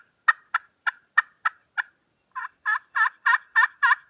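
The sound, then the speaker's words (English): Turkey hen yelps imitated on a slate call: six short, sharp, evenly spaced notes, then six longer, louder, raspy yelps in a steady rhythm, with no voices. “One thing I like about a slate call is you can get louder on it, or you can go real soft at that turkey's if he gobbles and he's really close”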